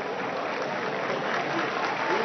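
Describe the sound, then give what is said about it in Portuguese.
A stadium crowd applauds a player being substituted during a football match between Anápolis and Paysandu, a dense, even roar of clapping that holds steady throughout. “O Ítalo sai aplaudido também.”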